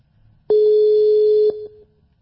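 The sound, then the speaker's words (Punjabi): An outgoing phone call produces a line tone: one steady, low beep lasting about a second, opening and closing with a faint click. A softer tail fades out after it. “ਤੇ ਆ ਲਓ ਜੀ, ਮੈਂ ਤੁਹਾਨੂੰ ਕਾਲ ਕਰ ਦਿੱਤੀ ਜੀ।”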